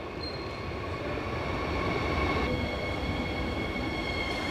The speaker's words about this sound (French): Il est 7 h du matin, le train arrive en gare de Berlin après avoir roulé 13 heures.